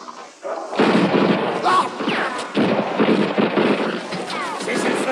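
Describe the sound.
Gunfire erupts during an armed manhunt in a French-language drama, with many sharp, loud shots over a steady rumble while voices talk throughout.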